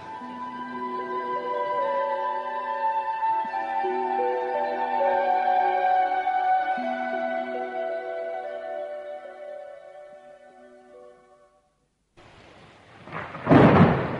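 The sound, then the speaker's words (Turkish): Heavy rain in a radio drama scene: a dense, loud hiss of downpour that surges near the end, after a long sustained tonal passage of music, with no voices. “Yağmur da bayağı hızlandı.”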